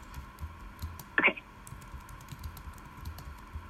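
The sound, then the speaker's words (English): Faint typing on a computer keyboard as notes are taken during a meeting: soft scattered clicks over a low hum, with one slightly louder short burst of keystrokes near the middle. “I'm just writing down this last one so I don't forget it here.”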